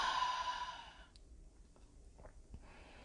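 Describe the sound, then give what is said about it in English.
One soft, airy exhale during a guided meditation breathing exercise, in through the nose and out through the mouth, lasting about a second before fading into near silence with a few faint small sounds. “In through the nose and out through the mouth. One more time, in through the nose and out through the mouth.”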